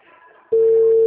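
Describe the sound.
A telephone ringback tone sounds while a call is being placed. A faint murmur gives way halfway through to a loud, steady single-pitched tone that holds unbroken to the end.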